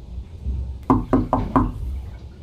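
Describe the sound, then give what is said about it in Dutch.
Knocking on a bedroom door: four quick, evenly spaced knocks in a tight burst, over a low background rumble. “Daarna klopte ik op de deur van Rudolfs slaapkamer”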